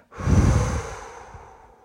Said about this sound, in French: Vous retenez l'air quelques instants et quand c'est OK pour vous, vous expirez en relâchant et en libérant toutes les tensions.